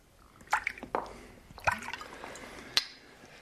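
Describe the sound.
Cognac poured into a glass, heard as a few faint, uneven splashes, drips and gurgles of liquid rather than a smooth continuous stream.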